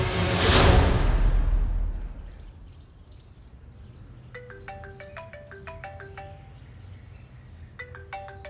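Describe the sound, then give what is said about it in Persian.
An electronic phone ringtone for an incoming call plays a bright, repeating melody of short beeping tones. It follows a loud whooshing burst of noise at the start that fades. “مهندس نورایی حتما اشتباهی تماس گرفته.”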